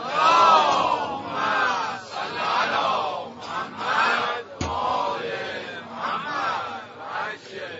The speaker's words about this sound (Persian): آیه شماره 20 سوره مبارکه زمر، ولی یه صلوات میخواد.